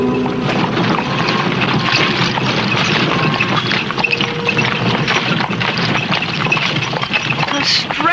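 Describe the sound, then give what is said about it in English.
Riding in a horse-drawn covered wagon: a loud, steady rumble and rattle of the moving wagon, with hoof clops mixed into the continuous noise throughout. “Riding in a covered wagon. It's not nearly as uncomfortable as I thought it would be.”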